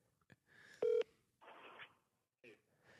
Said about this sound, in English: I should call him. Hey dad, call me. There's an emergency.